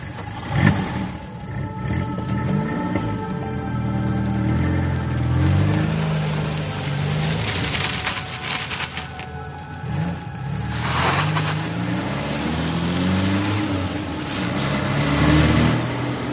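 An old truck's engine is cranked and started on a road in a Spanish radio dramatization. It rumbles at mid pitch, with repeated surges of revving that rise and fall across the span and no voices over it.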